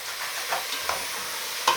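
Sauerkraut frying in a hot pan while being stirred, a steady hiss of sizzling with a few brief scraping stirs breaking through, no voices.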